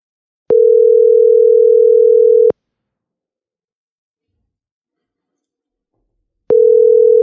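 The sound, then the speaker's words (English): A telephone tone sounds while a call is being placed: a loud, steady mid-pitched tone lasts about two seconds, then about four seconds of silence, then the tone starts again. No voices. “let me give this guy a call right now”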